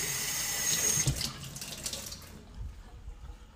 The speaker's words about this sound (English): You rinse this off.